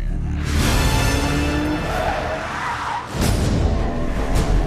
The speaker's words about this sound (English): let's take a look at the latest James Bond No Time to Die trailer. No Time to Die.